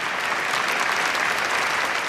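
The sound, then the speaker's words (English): Thousands of people applauding in a park outside an abbey: dense, continuous clapping that stays at an even, steady level throughout, with no single claps standing out. “Video footage shows thousands of people applauding in the park. Inside the Abbey, everyone applauds except the royal family.”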